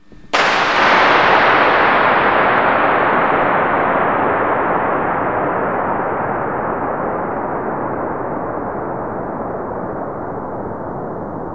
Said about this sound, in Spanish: vais a escuchar un disparo y luego eco de 112 segundos